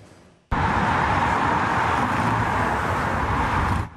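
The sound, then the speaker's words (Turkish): Road traffic roars steadily as long queues of cars fill the roads with holiday-makers returning home after the nine-day Kurban Bayramı holiday. A loud, unbroken wash of noise starts abruptly and holds at an even level. “Yollarda uzun araç kuyrukları oluştu.”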